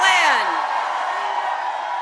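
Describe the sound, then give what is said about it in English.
A crowd yells and whoops during a political campaign speech ahead of a general election. The noise is loud and sustained for about two seconds, with a rising and falling whoop near the start. “She's got to work on her timing with the crowd yells.”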